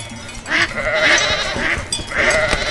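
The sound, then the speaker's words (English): Sheep bleat in a few loud, repeated calls over a busy background of other animal noise, each bleat a nasal, wavering cry. “Okay, that's a sheep.”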